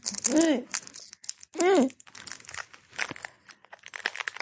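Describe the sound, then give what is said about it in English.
Tight shrink-wrap plastic crinkles and crackles as it is pulled off an Amazon Fire Stick package, in irregular bursts with brief voiced sounds mixed in. “I'm trying to get into the packaging for this Fire Stick. It's really closely shrink-wrapped.”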